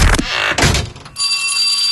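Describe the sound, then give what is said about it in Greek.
A school bell rings for the first day of the school year. A short burst of loud clattering noise comes first, then a bright, steady metallic ring. “Και τώρα που χτύπησε το πρώτο κουδούνι, το βιβλιοπωλείο Χάρτινο”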